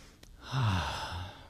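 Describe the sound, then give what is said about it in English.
A deep breath drawn in during a guided relaxation and tapping exercise: one long, soft, airy breath that swells after a brief pause and fades slowly, quiet and alone with no talking. “Take a big breath in.”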